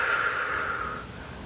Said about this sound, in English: Deep breath.